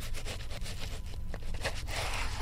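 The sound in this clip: A knife saws through a hard-looking, spongy-skinned fruit in rough, rhythmic scraping strokes that run steadily for about two seconds.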